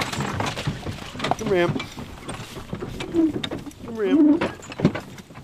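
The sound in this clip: Creaking and ratcheting of a wagon as Clydesdale horses back it up at the base of Mount Taranaki, in irregular bursts with a voice talking between them.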